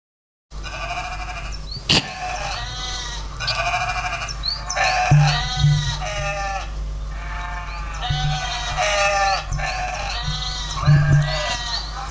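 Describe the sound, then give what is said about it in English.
Lambs bleat again and again, with many wavering, nasal cries following one another after brief gaps, loud and clear, with no talk over them. “Just sounds like a farm. It literally just sounds like lamb.”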